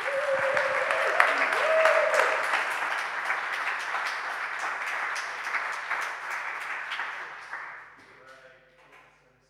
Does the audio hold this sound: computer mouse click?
no